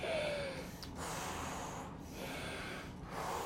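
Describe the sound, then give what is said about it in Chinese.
Breathing in and out repeatedly, a steady rhythm of soft airy breaths with brief pauses between them. “因此，为了要得到新的氧气，就要不停的。反复吸气吐气，吸气吐气哟，一起来。”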